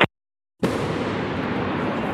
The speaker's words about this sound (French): Les pétards. Un pétard, voilà. Qui a pété dans le hangar. Donc, dans le bâtiment du montage.